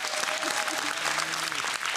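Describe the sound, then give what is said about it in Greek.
Audience applause, a dense, even wash of clapping that runs through the full two seconds at a fairly low level. “Δώστε ένα χειροκρότημα, γι' αυτό πέρασε!”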